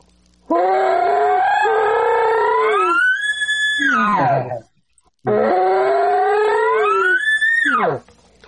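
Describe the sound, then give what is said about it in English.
A voice imitates a bull's bugle with a gurgly start, twice: each loud call climbs in pitch for a few seconds, holds, then falls away sharply, with a short pause between the two. “And there's one bull that I hunt. He has kind of a gurgly sound at the start. It's kind of like a sound almost. So when he bugles, it's almost like,”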